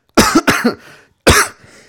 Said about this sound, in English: Unrelated coughing.